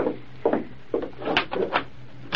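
Wooden door being unlocked and opened, heard as several dull, irregular clunks and knocks with some rattle, fairly quiet and with no voices.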